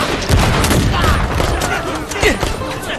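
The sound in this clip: Loud gunfire fills a battle scene with dense, overlapping volleys of shots. Sharp cracks and booms pile up into a continuous, chaotic barrage that stays intense throughout.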